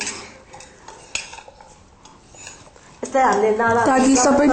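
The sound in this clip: A spoon stirring spices into eggplant in a pan gives sparse, light clicks and scrapes against the metal. Partway through, a voice starts talking over the stirring.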